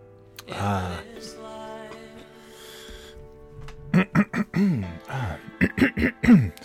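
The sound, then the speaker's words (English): A person clears their throat with a rough, raspy burst, followed by a string of short, voiced throat-clearing grunts of varying pitch, with no words spoken. “I could have cleared my throat before I started recording, but I thought this is way, way better to do it on air.”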